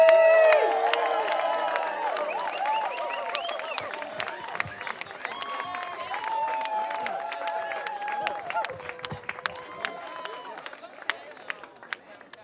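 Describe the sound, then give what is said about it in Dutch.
Audience applause and cheering at the end of a circus show in a park: steady clapping runs throughout with whoops and raised voices over it, loudest at the start and gradually easing off toward the end. “Nog één applaus voor Super City!”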